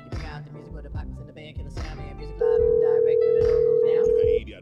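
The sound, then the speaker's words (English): Ringback tone of a telephone call to a number, heard as a single steady, mid-pitched tone lasting about two seconds that rises out of a muddy background of voices and noise. “I'm going to try again just because we know definitely it's his number.”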